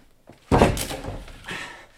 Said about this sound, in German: So kriegst du die Tür nie auf. Geh weg, ich trete sie ein.